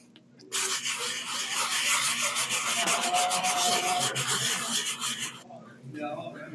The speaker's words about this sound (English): I'm gonna go ahead and rub the box.